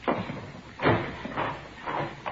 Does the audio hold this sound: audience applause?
no

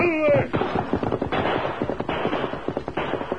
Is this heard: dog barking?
no

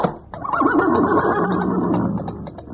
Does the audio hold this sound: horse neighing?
yes

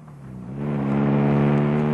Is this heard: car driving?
yes

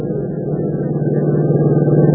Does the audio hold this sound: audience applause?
no

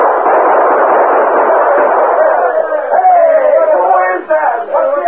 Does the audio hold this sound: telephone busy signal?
no

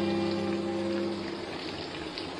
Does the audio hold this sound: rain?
yes

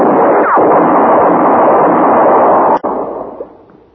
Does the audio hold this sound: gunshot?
yes

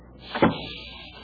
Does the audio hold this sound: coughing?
no

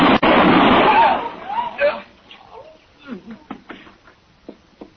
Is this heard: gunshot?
yes

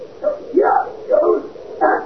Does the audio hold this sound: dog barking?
yes

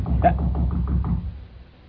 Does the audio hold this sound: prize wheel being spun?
no

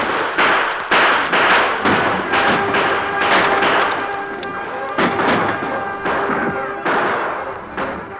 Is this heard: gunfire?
yes

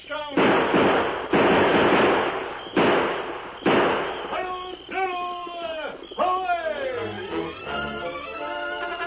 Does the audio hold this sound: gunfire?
yes

